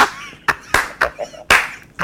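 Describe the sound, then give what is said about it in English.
A classroom of pupils claps in rhythm, a series of sharp, loud hand claps at uneven intervals separated by brief quiet gaps. “But classroom clap.”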